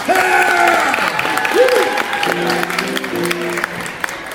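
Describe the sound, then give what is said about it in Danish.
An audience applauding to welcome a performer at a choir event, with continuous clapping under someone speaking that fades slightly toward the end. “Ej, han skal da lige have sådan en kæmpe hånd, ikke?”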